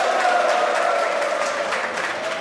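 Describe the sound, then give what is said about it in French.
A lively audience applauds in an amphitheatre at Joseph Ki-Zerbo University in Ouagadougou during a debate, a dense, continuous wash of clapping with scattered cheers that stays loud and even throughout. “dans la seconde partie du débat africain qui, cette semaine, est installé à l'université Joseph Kizerbo de Ouagadougou dans l'amphithéâtre des Dilibiens avec un public particulièrement en forme comme vous pouvez l'entendre.”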